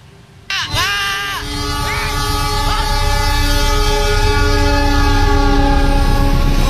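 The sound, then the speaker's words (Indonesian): An Anggrek passenger train passes a railway level crossing on Jalan Layur in Semarang, a loud, building rumble of rolling wagons that grows steadily heavier, with wavering tonal wails near the start. “mobil berjenis MPV ini nekat menerobos palang pintu kereta api di Jalan Layur, Kota Semarang dan nyaris tertempel kereta api anggrek”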